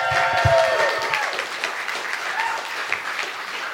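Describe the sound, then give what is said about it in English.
A comedy festival crowd claps and cheers for a comedian who is being introduced at a debate-style show. The applause is loud and sustained, a steady wash of clapping that stays even for the whole stretch. “Make some noise for Scout Boxall!”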